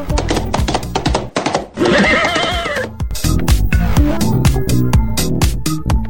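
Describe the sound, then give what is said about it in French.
A horse whinnies loudly in a long, quavering neigh, framed by rapid percussive beats before and after that suggest galloping hooves. “La School Radio arrive au galop!”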